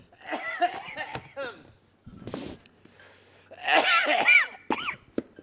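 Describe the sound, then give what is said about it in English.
A person with something caught in the throat clears it and coughs repeatedly, giving several rough, harsh bursts separated by short gaps and mixed with voiced grunting. “I've got something caught at the back of my throat. I'm going to have to stop talking.”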